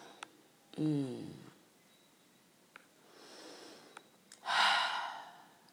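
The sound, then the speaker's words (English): Deep breaths drawn before speaking: a breathy, partly voiced sigh-like intake, a softer airy stretch, then a loud, long rushing breath near the end, with a few small clicks between them and no words. “I love to always connect to my breath before I speak, because it's almost like without the breath, I wouldn't be speaking.”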